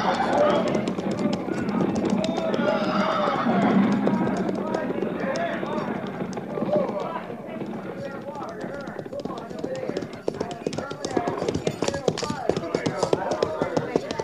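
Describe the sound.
Clip-clop of several cavalry horses as the mounted soldiers slow and halt near a creek: many quick hoof taps under men's voices throughout.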